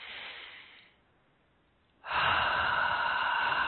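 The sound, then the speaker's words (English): Deep breathing, in through the nose and out through the mouth: a soft breath fades out, a short pause follows, then a louder, steady rush of breath continues to the end. “So nice, deep breath, please, in through the nose and out through the mouth.”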